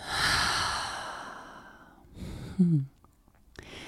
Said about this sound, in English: Go ahead and inhale all the way in. And let it out.